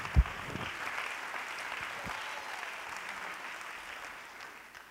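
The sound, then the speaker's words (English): Faint hand-clapping from a church audience during a sermon. A soft, continuous patter runs throughout, with one sharp thump near the start. “Clap your hands to the Lord. Come on, give me some help up here.”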